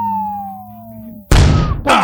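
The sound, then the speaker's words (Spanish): A firecracker bomb goes off in one loud, sharp blast that follows a steadily falling whistling tone over a low hum. Crackling noise tails off after the bang before another short burst of noise. “Para que agarren la pólvora y que truene el cohete, que truene la bomba. Bomba. ¡Pum!”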